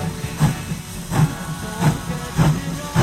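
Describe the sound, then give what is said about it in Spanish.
Train sound effect of rhythmic chuffing bursts with a breathy hiss, about five heavy, even pulses over a low rumble, loud and steady with no talk. “Pero nosotros le pusimos el sonido del tren, ¿viste? Si vendrá en tren.”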